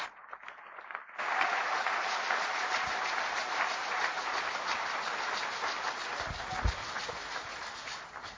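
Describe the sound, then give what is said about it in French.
An audience applauds to acclaim the Lord during a church service. The steady, dense clapping swells in after a brief quieter start and carries on evenly to the end. “Acclamons le Seigneur.”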